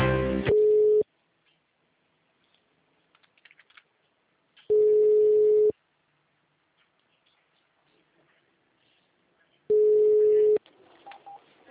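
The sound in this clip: Telephone tones sound while a call to a city hall is transferred between departments. Three steady, identical beeps, each about a second long, come at even intervals, with near silence and faint clicks between them.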